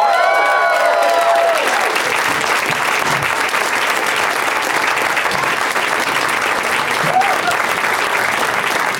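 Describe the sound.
A studio audience applauds as four guests come out, a loud, sustained wash of clapping that stays steady from start to finish.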